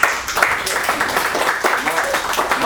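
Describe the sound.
Audience applause at a conference, a dense, continuous patter of many hands clapping at fairly high volume, with voices over it.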